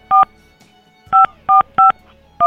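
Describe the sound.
Telephone keypad dialing tones: five short, crisp two-pitch beeps. A single beep is followed by a pause, then three quick beeps in close succession, with the last one cut off at the end.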